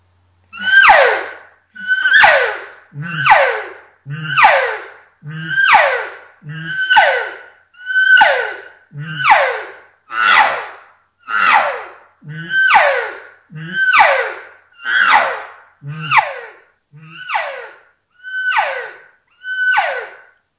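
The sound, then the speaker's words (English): High-pitched cow calls blown on a game call meant to draw bulls: a long, regular series of loud, squealing notes, each about a second long with brief gaps, repeated steadily with no other sound. “you can also implement high-pitched cow calls, and it just tends to turn up the emotion in what you're putting out there to the bulls, and it's going to sound like this.”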